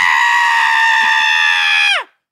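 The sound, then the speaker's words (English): A man's voice imitating a blood-curdling scream: one loud, sustained, high shriek lasting about two seconds, then sliding down in pitch as it cuts off into silence. “There's a man that screams like a blood-curdling scream. He's like...”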